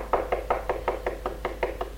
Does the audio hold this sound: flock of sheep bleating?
no